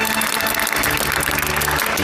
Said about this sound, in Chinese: 来哦，让我们用最热烈的掌声欢迎大恩人的到来。